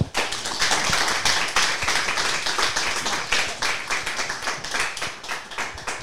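Studio audience applause welcoming a guest onto a show: dense, continuous clapping from many hands that holds steady throughout and eases off slightly toward the end.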